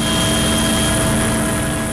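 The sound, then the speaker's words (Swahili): Steady engine drone of an aid aircraft in flight carrying humanitarian relief, a loud continuous rumbling roar with a constant hum throughout and no voices. “Ndege ya kutoa misaada. Watu waliofurushwa wakipewa misaada.”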